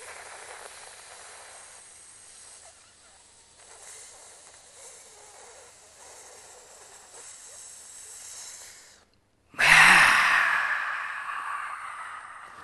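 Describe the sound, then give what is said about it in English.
A deep inhale during a guided breathing exercise: after a long stretch of faint, quiet hiss and a brief silence, a sudden loud, breathy rush of air swells and then slowly fades away. “Inhale.”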